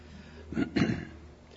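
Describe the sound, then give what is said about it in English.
Throat clearing by someone who has been ill for weeks, during a church worship service: two quick, rough, low bursts close together, fairly faint. “I rather imagine you're going to hear a great deal of that throat clearing this morning.”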